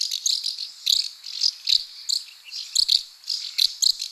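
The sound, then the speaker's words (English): House martins, a kind of swallow, calling in a high, dry twittering chorus. Many short chirps come in quick, uneven clusters, fairly loud and alone with no voices. “House martins are a kind of swallow that breed across much of Europe.”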